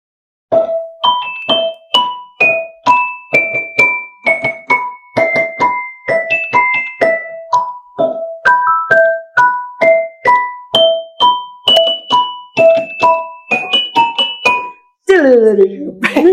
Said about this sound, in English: So this is called a celesta.